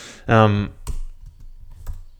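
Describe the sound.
Keys clack on a computer keyboard in a few scattered taps, following a short burst of a voice at the start.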